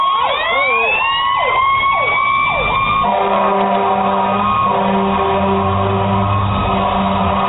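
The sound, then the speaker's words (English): A loud, wailing emergency siren with several quick rising-and-falling pitch sweeps that repeat in a regular rhythm, then it settles into steady, sustained high tones that drone on evenly to the end. “the best siren I've ever heard in my life. There it is.”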